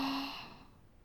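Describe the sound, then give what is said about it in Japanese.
A single soft exhaled breath during a guided breathing exercise, a faint airy sigh-like outflow that tapers off quickly, heard alone without talk. “吐いて、吸って、”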